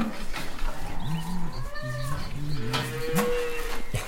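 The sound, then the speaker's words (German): Cows call from inside a barn in the morning with a few short, low, wavering moos over a steady background hiss. “Oh, jetzt ist mit dem Schlafen vorbei. Hoffentlich habt ihr euren schon meine Milch ausgestellt.”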